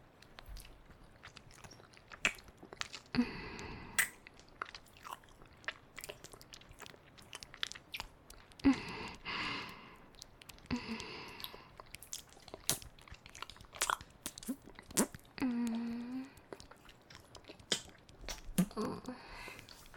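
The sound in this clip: Chewing and eating food, with many bites and crunchy, wet mastication sounds repeating irregularly and faintly for about twenty seconds, with occasional sniffs.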